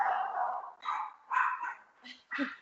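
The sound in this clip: Dog barking: a few short, faint barks in quick succession, mixed with talk.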